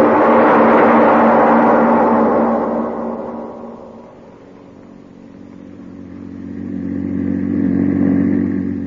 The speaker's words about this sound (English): The publisher and his chauffeur are driving along a country road.